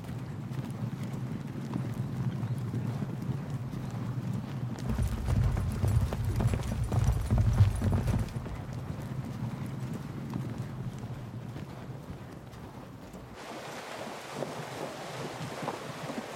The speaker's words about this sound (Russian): Группа людей, одетых в доспехи, скачут по полю. Поворачивают к лесу.